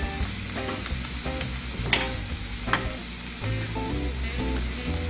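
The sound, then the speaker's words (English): Chopped spinach sizzling and frying in a pan while two eggs are scrambled: a continuous hiss with a few stirring clinks and scrapes, and no talk. “I chopped it up so it cooks a little faster. And while that's going on, I'm gonna scramble my eggs. You see this goes really fast. So scramble my two eggs.”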